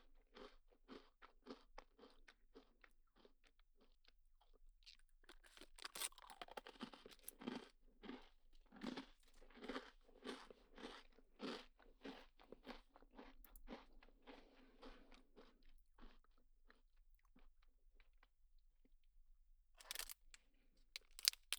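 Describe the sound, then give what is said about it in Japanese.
Crisp crunching and chewing of a cookie: many sharp bites and grinding chews in steady succession, with no talk and a few louder clicks toward the end. “私はクッキーおいしいもぐもぐってしてるんです。”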